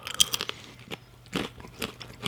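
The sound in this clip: Someone bites and chews spelt wholemeal crackers, producing many crisp, crackling crunches in irregular bursts. The crunching is fairly faint, with a few louder bites and no talk.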